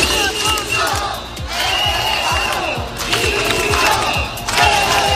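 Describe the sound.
Crowd of 200 to 300 protesters gathered in a city square, a loud, continuous mass of shouting and cries with steady low thumping pulses running underneath throughout.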